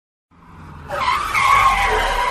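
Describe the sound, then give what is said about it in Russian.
Tires of a car with tinted windows screeching as it brakes and pulls up sharply in a cemetery, running over graves: a low rumble swells into a loud, harsh, sustained squeal that holds steady to the end. “Диск тормозов. Машина с тонированными стеклами резко подъехала к нам, оставляя следы покрышек прямо на могилах, свежих и постарше.”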